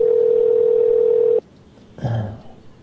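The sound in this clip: A steady telephone dial tone heard while calling a bar holds loud and unbroken for about a second and a half, then cuts off abruptly. A brief low noise follows after a short silence.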